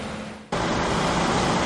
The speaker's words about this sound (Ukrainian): 4 автобуси один за одним заїжджають на майданчик.